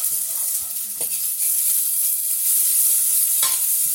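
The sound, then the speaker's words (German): Onions frying and burning in a pan give a steady, loud hiss of sizzling, with a few brief scrapes of stirring over it. “Goldbraun soll man nicht Zwiebeln braten, stand da. Jetzt sind sie eher schwarz.”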